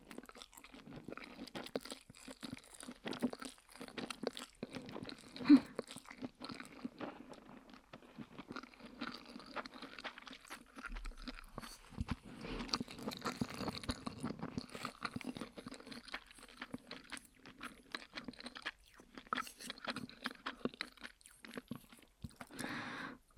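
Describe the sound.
Chewing and eating plain, unseasoned fried noodles: soft, wet crunching and mouth sounds repeat many times at a steady pace. The sound stays quiet throughout with no talking.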